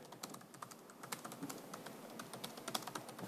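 Fast typing on a computer keyboard while writing code: many quick, light key clicks in an uneven, steady stream. The typing is quiet and heard alone.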